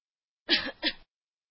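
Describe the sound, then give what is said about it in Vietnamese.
Someone gives a light cough: two quick, breathy bursts in close succession, short and fairly soft, with silence before and after. “Ai đó ho nhẹ một tiếng.”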